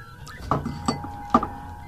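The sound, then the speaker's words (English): An empty drinking glass is knocked over, giving three sharp clinks, each with a brief bright ring, in quick succession. “Just knocked over my glass. Thank God it was empty.”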